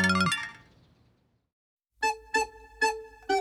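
A phone's email notification sound: a bright melodic tone fades out into silence, then four short, loud electronic chime bursts sound in quick succession.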